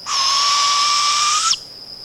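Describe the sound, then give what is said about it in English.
A female barred owl calls for a mate: one sustained, loud, strained screech held steady for about a second and a half, then cutting off abruptly into faint hiss. “That's the sound of a female barred owl calling for a mate.”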